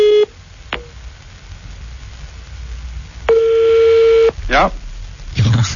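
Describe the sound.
Electronic telephone tones before a call is answered: a short beep, a click, then a longer steady tone lasting about a second, followed by brief sweeping tonal sounds over a low background hum.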